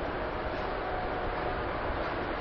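Steady rumble and hiss inside a moving train, a continuous dense roar with no distinct events and no voices.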